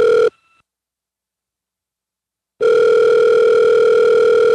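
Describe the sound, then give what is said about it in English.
Telephone tones while a call is being connected: a brief steady electronic tone cuts off, about two seconds of silence follow, then a loud continuous buzzing tone with rich harmonics holds to the end. “we have Brother Clay on the line. Now, let's patch him in. Okay. Let's see if he's available.”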